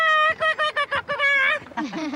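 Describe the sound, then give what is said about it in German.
Squeaky piping calls of an oystercatcher (Haematopus): a loud run of short, sharp, repeated notes, then a quicker cluster, trailing off into lower wavering notes. “Der Austernfischer Hematopus australegus ist ein schwarz-weiß gefiederter Vogel mit einem roten Schnabel. Sein häufiger und quietschender Ruf ist nicht zu überhören.”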